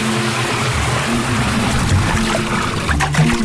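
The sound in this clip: A small stream of water from a shower, a steady soft hiss and trickle that runs throughout, with tonal music playing underneath.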